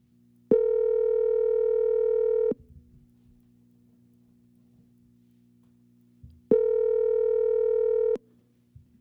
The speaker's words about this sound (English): I need to dial her number. You need to dial her number.